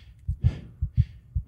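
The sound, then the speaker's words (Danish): Heartbeat sound effect played during a football quiz: a few deep, loud lub-dub double thumps in a steady, slow rhythm, with no voices. “Så jeg sætter noget hjertelyd på,”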